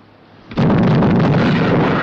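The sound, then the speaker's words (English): Artillery guns fire on a ship from a riverbank: a low rumble, then a heavy blast about half a second in that swells into a loud, sustained roar lasting to the end. “Artillery guns fire on the ship from the bank. Open fire! Open fire!”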